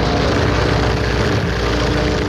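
A small propeller airplane takes off in poor weather with a loud, continuous engine roar. The dense, rushing drone holds steady throughout with a low hum underneath.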